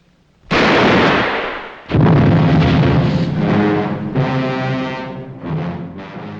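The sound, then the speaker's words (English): Two loud gunshot blasts from the film Sunset Boulevard as Norma shoots Joe in the back outside the mansion, about a second and a half apart, each trailing into a long, heavy tonal ringing that slowly fades. “Joe heads out of the house, and once outside, Norma shoots him twice in the back, and he falls into the pool, and the flashback ends.”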